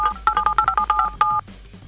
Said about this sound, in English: I really like that dial one.